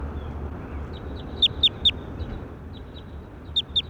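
Bird calls ring out as sharp, high chirps over a steady low hiss: three loud notes in quick succession, then two more after a pause, with a few fainter chirps scattered between.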